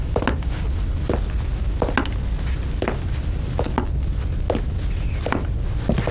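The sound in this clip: Footsteps of a commander walking away sound as a steady series of short, even thuds at a regular walking pace over a constant low background.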